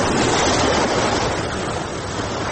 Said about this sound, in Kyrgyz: Бул Чолпонта шаардык муниципалдык пляждардын бири.